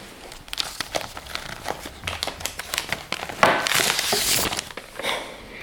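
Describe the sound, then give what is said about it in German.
A paper hospital patient file is pulled out and handled, with many faint crinkles, rustles and sharp paper snaps following in an irregular rhythm. “Also was ich jetzt rausgeholt habe, ist meine Patientenakte aus dem Klinikum”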